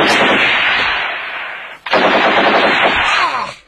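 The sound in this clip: Loud automatic gunfire during a gunfight: two long, sustained bursts of rapid shots separated by a very brief pause, dense and harsh throughout.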